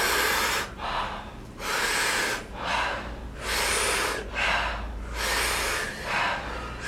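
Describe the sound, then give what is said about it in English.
Deep rhythmic breathing, big full inhales alternating with softer relaxed exhales in a steady repeating cycle, loud and breathy throughout with no talking. “The breath is so big that your chest expands, your belly rises up to the sky, and the exhale, just relax the body, soft exhale. We do it rhythmically, we do it together, it sounds like this.”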